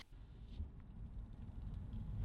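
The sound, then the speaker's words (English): A car drives through Indianapolis toward a ramen restaurant, heard from inside the cabin as a faint, steady low rumble with a soft, constant road hum and no talk. “So we're in the car, driving to get some ramen.”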